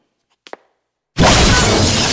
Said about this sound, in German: Die Fenster des Wintergartens explodierten.